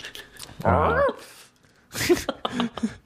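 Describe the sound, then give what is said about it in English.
A dog whimpering: a short, wavering high-pitched whine lasting about half a second, then a few briefer, choppier vocal sounds. “That's the dog questioning my claim. Cocked his head.”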